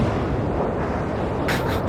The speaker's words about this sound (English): I think I can analyze that sound. That's a rocket launch. Correct.